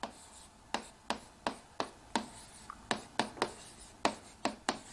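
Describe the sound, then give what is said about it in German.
Writing on a board with a marker: many short, scratchy strokes in an uneven rhythm, faint and heard alone with no talk. “ich schreibe es extra so hier hin”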